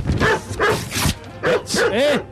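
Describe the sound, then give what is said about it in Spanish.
A dog barks in a quick run of sharp barks and yelping yips, about six bursts across a couple of seconds, some with wavering, whine-like pitch. “Ah, el perro, maldito perro. A ver si el perro escupe el precio.”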